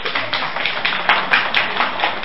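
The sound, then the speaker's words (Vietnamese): Women in an audience clap, a steady run of many light, uneven claps at a moderate level with no talk over them. “Các chị vỗ tay là bị hố.”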